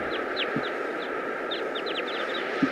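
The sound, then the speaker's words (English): A wild flock of birds calls from a dead tree, a group of mostly males with some females. Many short, high chirps come in loose clusters over a steady outdoor background, with an occasional lower cluck. “There are mostly males and some females. Stop. Still recording. This is a wild flock.”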